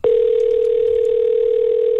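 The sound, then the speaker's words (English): A telephone dial tone as a radio host phones a contest winner: a loud, steady, unbroken hum at one fixed pitch that starts abruptly and holds without change. “And it's time to get to the phone lines and call a winner.”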